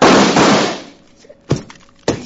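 Gunfire in a dramatic scene: a loud, noisy burst gives way to quieter sound, then two sharp bangs follow about half a second apart.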